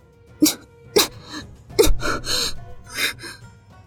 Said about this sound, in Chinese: 苏黎咳了几声，咬紧牙关。